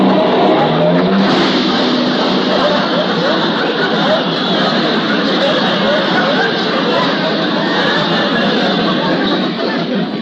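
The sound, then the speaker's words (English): A car engine revs while the car backs carefully out of a cramped garage. The motor holds a steady, droning roar for about ten seconds, and voices chatter over it. “I gotta take it easy now. There ain't much room here in this garage. And I gotta back out very carefully.”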